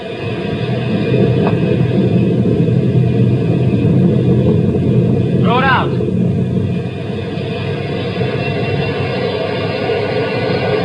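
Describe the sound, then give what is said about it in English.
A heavy machine thrown into gear to raise a gate gives a loud, steady low engine rumble that runs unbroken throughout, with one brief higher squeal near the middle. “throw it in gear and raise the gate.”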